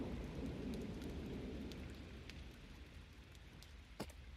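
Heavy rain pours down steadily as a dense hiss, with low rumbling thunder beneath it that is strongest early and eases off, no voices present.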